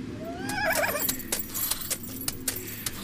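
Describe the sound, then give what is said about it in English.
A horse pulling a buggy goes by, whinnying once near the start, then a steady clip-clop of hooves that carries on to the end. “I mean, when is the last time you saw a horse and buggy without an Amish man”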